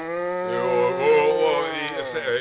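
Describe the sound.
A cow gives one long, rich, drawn-out moo in a barn in the morning before milking. The call is steady and loud and wavers slightly in pitch, with no voices.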